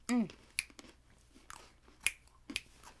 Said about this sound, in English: I'm having another Pocky.